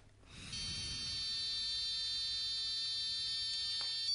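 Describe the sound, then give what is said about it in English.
A breath-test machine gives a steady, high electronic tone while someone blows into it. The tone follows a short breathy sound and then holds unbroken and even for several seconds. “Don't blow too hard, but one continuous breath, and the machine will make a noise to show that you're blowing properly.”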